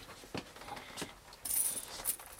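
Metallic clinking of gold coins shifting inside a sack, a few bright jingling bursts at low volume, spaced unevenly across the moment.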